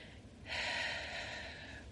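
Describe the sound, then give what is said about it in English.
A deep breath drawn in: a soft, airy rush of air that begins abruptly, swells, then slowly tapers off. It is quiet and alone, with no talk. “Ready? Inhale.”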